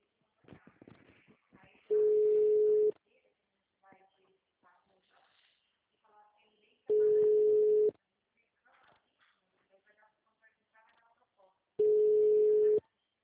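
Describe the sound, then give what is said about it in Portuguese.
Three long, steady telephone signal tones at a single mid pitch follow an automated answering message on a municipal office line. The tones are evenly spaced about five seconds apart, with faint talk and noise between them. “Atendimento digital. Após o sinal, digite o ramal desejado ou aguarde.”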